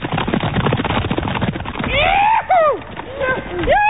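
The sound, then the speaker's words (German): Hooves of horses galloping along a narrow riding trail in dense forest drum in a fast, steady rhythm, then give way to louder tonal calls. “Plötzlich wird der Reitweg ganz schmal und taucht in dichten Wald ein. Zeit für den ersten Galopp.”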